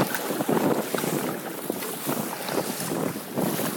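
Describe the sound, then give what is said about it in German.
Paddle strokes push a boat upstream through river current along the eddy line where slack water meets the main flow, with a steady rush of water and wind and a few soft splashing strokes breaking through. “Jetzt wir ein bisschen hochkämpfen. Ein bisschen warm paddeln.”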